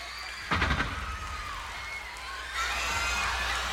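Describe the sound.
Audience cheering and whooping at a concert introduction in the style of Kiss: a dense crowd roar bursts in, holds steady, then swells louder toward the end.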